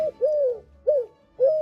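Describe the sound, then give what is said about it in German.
Eurasian collared dove cooing: three clear, hollow, mid-pitched coos in an even rhythm, each a short smooth note separated by brief silences, with no other sounds around them. “Ja, das ist eine Türkentaube.”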